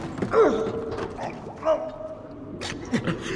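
A door creaks open while people explore a dark place. It makes a few drawn-out squealing creaks with gliding pitch against a rumbling background.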